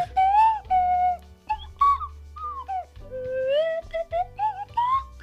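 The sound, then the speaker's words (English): A cheap slide whistle plays loud, wavering notes that glide up and down in pitch, with short bursts and bends between longer held tones, heard alone without talk. “I don't know if it's in the register of this $3 slide whistle. Where does one buy a slide whistle?”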